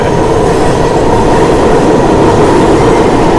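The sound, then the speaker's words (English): Loud, steady rumbling roar of an E subway train passing in the other direction, a continuous dense rush of rail noise with no talk over it. “There's another E going the other way.”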